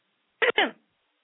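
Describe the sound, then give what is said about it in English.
A person clears their throat in two short, sharp bursts. The second burst is slightly longer and trails off, and both stand alone against silence. “Pardon me. I cleared my throat, and I think you heard that.”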